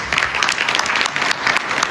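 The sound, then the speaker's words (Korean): Attendees applaud at a state dinner in the Palace of Versailles after a peace agreement is signed, giving dense, steady clapping that holds at a fairly even loudness throughout, with no talk over it. “마크롱 프랑스 대통령 등 참석자들이 흐뭇한 표정으로 박수를 보냅니다.”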